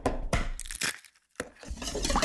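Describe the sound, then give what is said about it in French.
Eggs are cracked open for the dough of a maroilles tart. A few sharp cracking and crinkling bursts of shell sound close together, with a short silent gap between them. “On casse nos œufs.”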